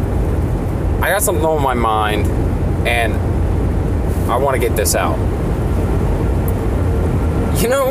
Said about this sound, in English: I apologize for the road noise